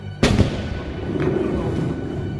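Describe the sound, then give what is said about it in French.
A cannon shot fired from the frigate Abraham Lincoln at a sea monster: one sudden, loud blast followed by a long, low rumbling decay. “Monsieur voudra sans doute se boucher les oreilles. Le canonnier de l'Abraham Lincoln va tirer sur l'animal.”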